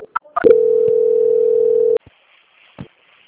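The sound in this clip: A telephone tone during a call transfer: a single steady mid-pitched beep lasting about a second and a half, preceded by a few brief clicks and followed by faint line hiss.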